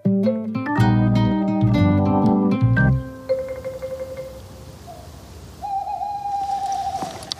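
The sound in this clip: Hooting of a male tawny owl far off: long, steady hoot notes, the later one drawn out with a slight waver. A richer, louder tonal passage of several notes comes before them.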